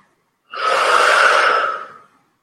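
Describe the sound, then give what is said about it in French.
A single long breath during a breathing exercise: one steady, airy rush that swells quickly, holds for over a second, then tapers away alone in silence. “Encore, on inspire on expire. On revient encore.”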